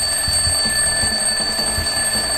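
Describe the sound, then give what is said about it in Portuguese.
An alarm clock ringing: a steady, continuous high-pitched electronic ring that holds unbroken throughout, with soft low thumps pulsing beneath it. “O que, tem a ver esse despertador aqui em plena 2h05, né?”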